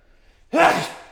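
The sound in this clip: A single sneeze bursts out after a near-silent lead-in, with a sharp, loud onset followed by a breathy, noisy tail that fades gradually.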